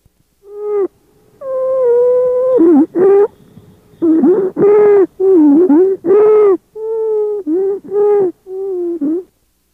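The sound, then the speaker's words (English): Stridor in a child with croup: a series of loud, musical, crowing breath sounds of fairly constant pitch, repeating many times. Some sounds are drawn out and others short, with occasional wavering dips in tone. “Stridor is a particularly loud musical sound of constant pitch. Listen to this example of stridor in a child with croup.”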